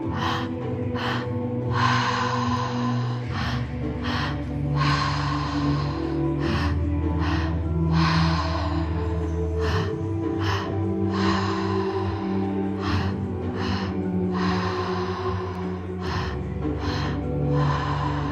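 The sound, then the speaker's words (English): Double-inhale breathing during a guided breathwork session: many quick, sharp breaths taken in pairs, repeating steadily over a continuous tonal drone. “So slowly start shifting to a double inhale.”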